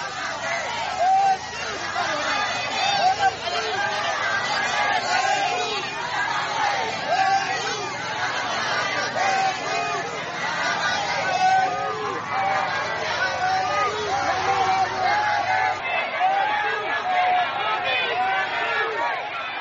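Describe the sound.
Crowds of people lining the road in Naypyidaw welcome Aung San Suu Kyi home from the ICJ, a dense, steady babble of many voices that runs unbroken throughout.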